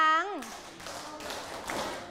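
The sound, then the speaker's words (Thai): Students in a classroom clapping their hands on a teacher's cue: a brief voice at the start gives way to a dense, steady patter of many claps that carries on to the end. “ปรบมือ”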